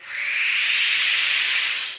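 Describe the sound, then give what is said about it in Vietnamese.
A cat hisses: a single sustained, breathy hiss lasting about two seconds, fairly loud and even from start to finish, heard alone without voices. “Vừa nhìn thấy chú Thuấn mở tấm di đô là con mèo bất giác ngẩng mặt lên nhìn về phía của chú kêu lên một tiếng.”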